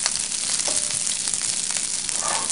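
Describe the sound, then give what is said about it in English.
Rice fries in hot oil in a pan for fried rice, giving a steady, dense, loud sizzle with faint crackles throughout and no talking. “if you see if your pan's getting hot, like the, like the rice is absorbing a little bit of your oil, that's okay.”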